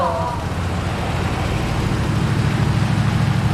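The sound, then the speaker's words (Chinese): A Mercedes G-Class SUV engine gives a steady low rumble with a broad hiss. The sound stays at an even level throughout, with no clear rise. “你们快看那辆大 G， 好像整个金海就这一辆哎。 谁的车？ 长征集团的。 还往我们这边走。”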